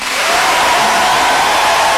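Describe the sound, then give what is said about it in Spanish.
Audience applause at a live band performance as the drummer is introduced, a dense, steady wash of clapping holding at an even level for about two seconds with no talk over it. “Ya, aplauso, por favor.”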